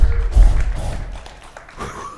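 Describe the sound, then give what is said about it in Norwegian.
A muffled whooshing thud as an aerosol can's butane-propane mixture ignites: a loud low rumbling burst for about a second, then a quieter tail. “Hva det du fyrte av nå? Hva det som tok fyr nå? Det aerosoler. Det egentlig en blanding av butan og propan.”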